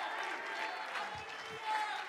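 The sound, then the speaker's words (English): A church audience clapping hands in praise during a service: a steady, soft patter of many claps, with faint voices mixed in beneath it. “Come on, church, clap your hands and give the Lord some praise.”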